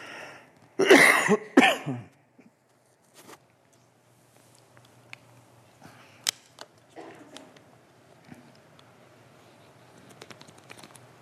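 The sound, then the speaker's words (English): A few loud coughs in quick succession at a pulpit during a sermon. After them comes a long quiet stretch with faint scattered clicks and rustles. “I think I've become allergic to this pulpit or something. It's like I can hardly get up here without coughing.”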